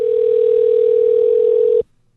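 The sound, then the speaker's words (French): Telephone dial tone heard before a call is placed: one steady, loud mid-pitched tone held for nearly two seconds, then cut off abruptly. “Allez, petit coup de fil.”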